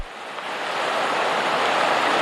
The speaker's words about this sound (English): The storm surge kicking up waves in New Orleans and flooding along the coast as far as Biloxi, Mississippi.